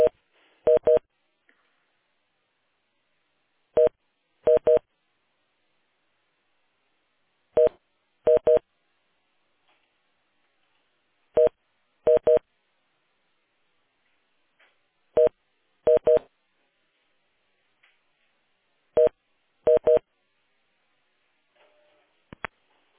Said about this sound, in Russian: давайте тогда, может, попробую сейчас еще соединиться. Если есть возможность соединиться, потому что если один номер, то и там не берут трубку.